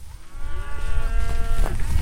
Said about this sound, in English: Let's walk a little closer. Yeah. They're black Angus cattle